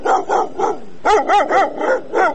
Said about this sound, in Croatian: Među godinama napušteni psi žive na ulicama Sarajeva, lutaju u čoporima, često gladni i zbog toga agresivni, svakodnevno napadaju ljude.